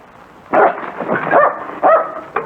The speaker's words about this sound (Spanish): No ladres, no ladres. Eso es. No ladres, nos van a descubrir